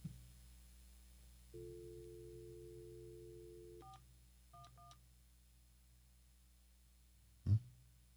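A telephone keypad dials 411 after a steady dial tone. The quiet tone runs for a few seconds, then stops, followed by three short beeping keypresses, and a sharp click closes the sequence.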